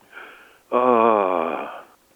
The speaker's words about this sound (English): Now, let me calm down, and I'll go back, and I will explain to you the Pondo. And let me just take a deep breath here.